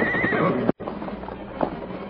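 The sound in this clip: Horses whinny and their hooves scrape on a steep, perilous canyon trail as riders lead them down on foot. A loud neigh-like burst opens, then a brief dropout, then scuffing hoof sounds and another short whinny-like call.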